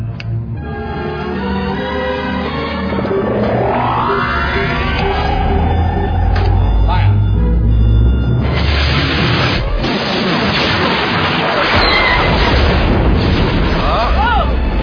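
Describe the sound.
A superlaser blast fires from a battle station amid a space battle: rising whining sweeps build over dense rumbling, then a loud, broad, crackling roar with sharp bursts fills the rest.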